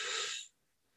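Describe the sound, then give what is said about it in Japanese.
A deep inhalation during zazen meditation: one soft, airy intake of breath lasting about half a second, then silence. “それでは深呼吸3回します。大きく吸います。”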